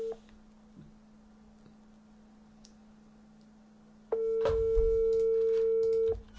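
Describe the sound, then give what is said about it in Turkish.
Telephone call tone: after a quiet stretch of faint hum, a steady, level electronic tone sounds for about two seconds and then stops. “Şunu arayayım bir dakika dur.”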